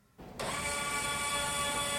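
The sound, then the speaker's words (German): Puma football boot testing machine pressing studs into a small patch of artificial turf, a steady mechanical whir with several high whining tones that starts in two quick steps and then holds level and loud, with no talk. “Ein von einer Maschine gehaltener Fußballschuh senkt sich ab. Die Stollen drücken sich in eine kleine Kunstrasenfläche. Dann wird der Schuh von der Maschine nach hinten gezogen.”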